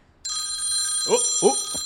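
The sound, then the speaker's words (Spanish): A telephone rings with an incoming call: a bright, steady electronic trill starts abruptly and continues to the end. A voice briefly speaks over it near the close. “Tenemos llamada, espérate.”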